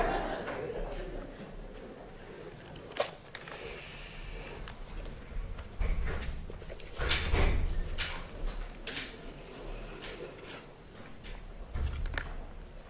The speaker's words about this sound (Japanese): じゃあ窓閉めていただきます。